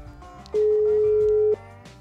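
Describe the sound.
Ringback tone of an outgoing telephone call: a single steady, loud mid-pitched tone lasting about a second, sounding over quiet background music.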